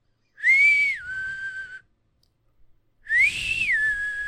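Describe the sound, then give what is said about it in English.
A person whistles to imitate an eerie, bird-like whistle heard outside. There are two clear whistled phrases, each sliding up to a high note and then settling onto a lower, steady held tone, with a pause between them. “I know, like, I've heard the whistle and it sounds kind of like,”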